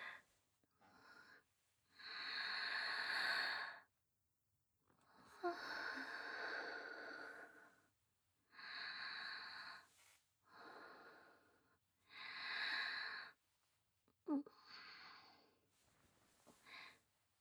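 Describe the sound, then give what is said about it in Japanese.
Deep breathing, many slow, heavy breaths in and out with short pauses between them, some with a snorting, airy edge. Quiet and alone, with no talking. “深呼吸。”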